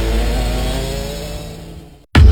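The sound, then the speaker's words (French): A bioethanol-powered go-kart engine at full throttle on a karting track: a loud, sustained buzzing drone that slowly eases, then cuts off abruptly before a short, loud burst. “Prenez le volant des kartings fonctionnant au bioéthanol. À fond dans la ligne droite. Freinage avant l'épingle.”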